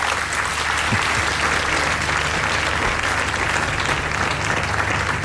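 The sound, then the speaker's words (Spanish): Sustained applause from an audience greeting a speaker's emotional testimony, dense steady clapping throughout at a constant loud level with no voices rising above it. “Aplaude el Papa León XIV las palabras de Kadri, que se rompe al contar su experiencia.”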